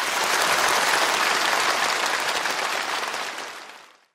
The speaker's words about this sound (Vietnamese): Vỗ tay khen mình đi.